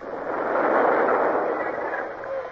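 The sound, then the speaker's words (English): A signal gun fires a salute from a naval ship: a broad, rumbling roar that swells and then slowly eases off over a couple of seconds, with no voices. “What's that? Signal gun from the indefatigable Tapling. Oh, saying farewell, eh?”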